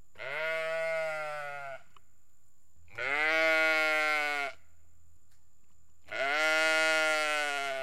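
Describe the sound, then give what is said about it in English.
Sheep bleating in three long, loud, harmonically rich calls, each lasting over a second, with short pauses of quiet between them. “So since then, when my sheep yell at me,”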